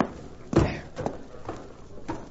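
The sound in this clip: Horse hooves clip-clopping, a few spaced, fairly slow hoofbeats landing at even intervals, each a short dull knock, moderately loud over a low background hiss.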